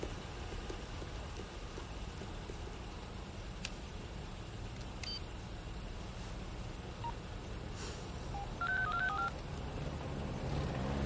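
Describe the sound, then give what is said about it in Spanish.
A telephone being dialed: faint touch-tone beeps come near the end in a quick run of short tones, heard over a steady background hiss. “Ella llama por teléfono.”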